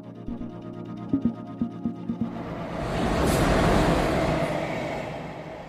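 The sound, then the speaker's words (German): Train compartment ambience on a ride from Bochum to Frankfurt: a run of rhythmic clacks opens, then a broad rushing rumble swells up and holds, fading slightly toward the end. “schön, dass wir uns hier in diesem Zugabteil getroffen haben. Wir fahren jetzt gemeinsam von Bochum Hauptbahnhof nach Frankfurt.”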